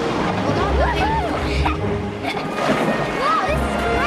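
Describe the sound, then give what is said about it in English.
A boat rocks through white-water rapids with loud, continuous sloshing and rushing water. Excited voices mix in throughout. “They hit the rapids. Here we go.”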